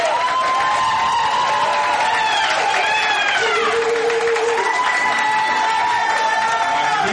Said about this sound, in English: And y'all clapping for yourselves